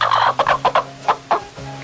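A rooster clucks in a farmyard, giving a quick, choppy series of about six short, mid-pitched clucks in under two seconds, loud and alone.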